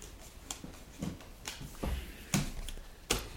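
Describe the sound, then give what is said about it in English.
Pandemic Legacy board game cards being shuffled, producing faint, crisp snaps and flicks that come at irregular intervals with quiet rustling in between. “All right, I say shuffle them up and... Let her rip.”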